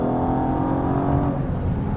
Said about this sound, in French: l'échappement a été revu donc ça fait vraiment plus de bruit que la DB11 et ça on s'en plaint pas.